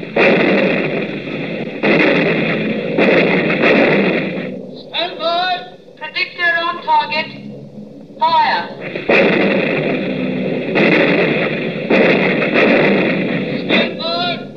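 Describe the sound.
Anti-aircraft guns firing on command, heavy booming volleys repeating at intervals with a rough, crackling roar, broken by a stretch of shouted commands between the bursts.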